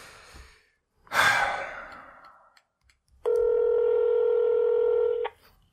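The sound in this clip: Phone dialing and ringing on an unanswered call: a short breathy burst, then one steady, loud electronic ring tone holding for about two seconds before cutting off.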